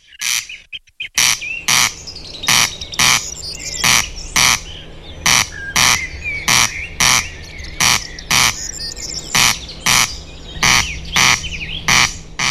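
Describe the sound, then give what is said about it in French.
A male corncrake calls at night in a field, repeating a loud, dry, rasping double note over and over at a steady, mechanical rhythm. Fainter chirps from other birds can be heard in the background. “C'est d'ailleurs de la sonorité de ce chant si particulier qu'il tient son nom latin, le crex crex.”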